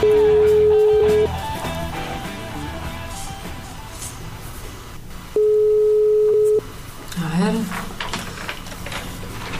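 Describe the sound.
International telephone ringing tone on a call to Spain: two long, steady mid-pitched tones separated by a pause, with people talking and background noise in between.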